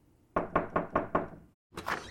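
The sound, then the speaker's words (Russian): Knocking on a wooden door, five sharp, evenly spaced raps in quick succession, then a short silence and a brief burst of another noise. “Сии размышления были прерваны нечаянно тремя франмасонскими ударами в дверь.”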